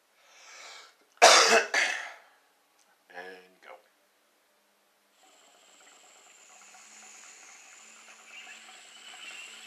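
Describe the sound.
Coughing after inhaling a dab: two loud, harsh coughs in quick succession, then a couple of softer, shorter bursts, followed by a faint, steady hiss.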